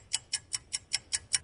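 Steady ticking of a clock used for a radio call-in clock game: seven crisp, evenly spaced ticks at about five per second, fairly faint and heard alone.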